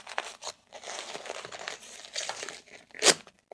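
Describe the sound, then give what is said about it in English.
A disposable diaper crinkles and rustles as it is pulled up snug on a baby and its tape tab is peeled and fastened. Soft crackling runs throughout, ending in one sharp ripping peel. “Okay, let's pull this diaper up nice and snug. Can't have any leaks for this little baby. One tape.”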